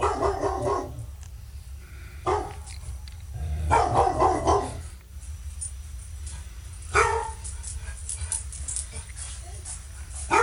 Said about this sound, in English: this is the Labrador Retriever. It is the number one dog in around the world. It really is. They're usually quiet animals, but they can bark, and they sound something like this.